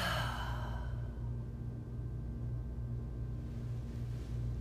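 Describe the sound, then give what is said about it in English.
A deep breath let out slowly during a guided relaxation: a soft, airy whoosh at the start that fades within about a second into a steady low hum. “taking a deep breath in, top to bottom, side to side, front to back. And letting the breath just fall out.”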